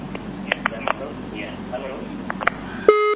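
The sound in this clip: Line noise from a caller on a live call-in radio show for an Arabic lesson, breaking off abruptly into a steady electronic tone as the connection drops.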